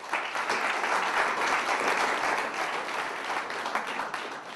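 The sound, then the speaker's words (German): An audience at a philosophy debate event claps loudly to cast its vote for a speaker, giving steady, dense applause that holds an even level throughout with no voices. “Bitte jetzt abstimmen mit lautstarkem Applaus für Mirko Stockhausen.”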